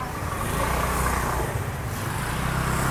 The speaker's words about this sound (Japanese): 狭いところにオートバイも入ってくるね。